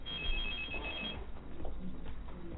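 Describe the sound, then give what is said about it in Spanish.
An incoming call rings on a telephone with a high electronic tone that cuts off after about a second, leaving a dull, noisy rumble. “Es más, vamos a contestar esta llamada a ver qué nos dicen.”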